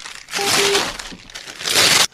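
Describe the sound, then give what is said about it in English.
Paper loan documents being ripped into pieces, heard as loud bursts of crinkling and tearing in two main stretches separated by a quieter moment, ending abruptly. “and guess what? I'm going to rip them up. I'm ripping them into pieces.”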